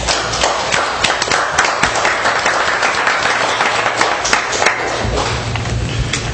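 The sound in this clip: Steady applause from an audience at a public meeting: many hands clapping in a dense, continuous patter with scattered sharper claps. It stays loud and even throughout, without talk.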